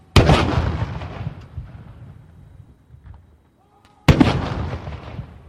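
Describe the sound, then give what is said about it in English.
Ceremonial gun salute for an arriving leader at Parliament House: two loud artillery booms about four seconds apart, each with a long rumbling decay. “Mr. Carney was given a ceremonial welcome with a gun salute”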